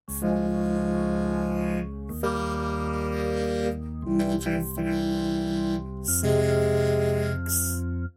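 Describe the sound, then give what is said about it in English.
A looped four-chord progression of D-flat major, E-flat major, C major and F minor in the key of A-flat, each chord held for about two seconds in a smooth, sustained synth-like keyboard tone, with no voices. “featuring the chord loop D-flat major, E-flat major, C major, F minor, which sounds like this in the key of A-flat.”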